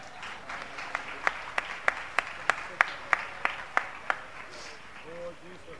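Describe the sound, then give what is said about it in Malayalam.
A church audience claps in a steady, evenly spaced rhythm: many sharp, distinct hand claps in a row, fairly loud against a quiet background, then stopping near the end. “എല്ലാവരും ഒന്ന് കൈയടിക്കാം.”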